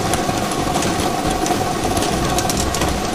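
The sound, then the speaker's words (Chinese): A lottery drawing machine spins 30 numbered balls, giving a steady, loud mechanical whir with dense, continuous rattling that holds even throughout, with no voices. “好的，摇奖机已经正式启动了。通过镜头我们可以看到30个号码球在摇奖机当中正在快速的旋转着”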